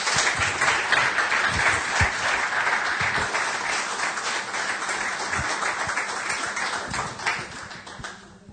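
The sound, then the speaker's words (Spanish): An audience applauds in church: dense, continuous clapping holds steady and loud for several seconds, easing off slightly at the very end. “le recibimos a Eliseo, le damos un aplauso hoy de”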